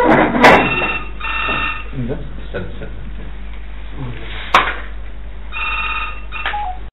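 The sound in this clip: Telephone ringing during a lecture at a training course for imams in Tanta: bursts of trilling bell rings recur with a pause between them, sounding under a man's steady talking.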